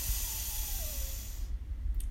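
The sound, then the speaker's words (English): A deep breath drawn in during a breathing exercise makes a steady, airy hiss for about a second and a half over a low rumble, then fades into quiet. “So deep breath in”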